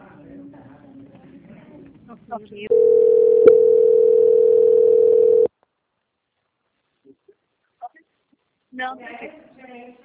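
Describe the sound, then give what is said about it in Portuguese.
Steady telephone line tone while a call is transferred, one even mid-pitched note held about three seconds with a click partway through, with people talking before and after it. “Agradeço a sua atenção e peço que aguarde em linha. Vou transferir o seu contato para o controle de qualidade que dará continuidade à contratação.”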